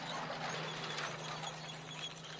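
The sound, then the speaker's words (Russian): A green truck carrying women in the back drives along a village road in a film scene, a steady low engine drone with light mechanical rattling on top. “Едет зеленый грузовик. В кузове сидят женщины, у них на головах светлые косынки.”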